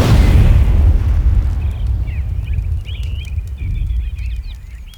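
A loud explosion booms at the start, and its heavy low rumble slowly decays over several seconds while birds chirp faintly in a few brief bursts.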